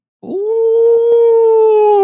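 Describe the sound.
A person imitates a wolf howl while sitting quiet on a hunting outing: one long, steady, mid-pitched howling tone, held loud and even for almost two seconds with no other sound.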